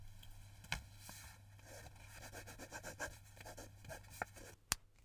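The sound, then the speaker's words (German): A pen scratches across paper as a phone number is written down: faint, rapid scribbling strokes with a few sharp taps, quiet throughout. “Schau, da ist meine Nummer, ich schreibe sie dir auf.”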